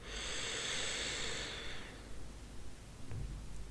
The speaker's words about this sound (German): Und nimm ein paar tiefe Atemzüge hier tief, tief ein.